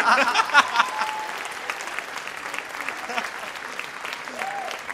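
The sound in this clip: An audience gives arriving guests a big round of applause on a Danish talk show, a steady, lively clapping that carries on throughout, with a few voices heard over it.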